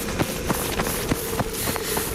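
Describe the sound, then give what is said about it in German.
Footsteps of children running off, a rapid, steady patter of light footfalls over constant background noise. “Wenn ich jetzt sage, rennst du los.”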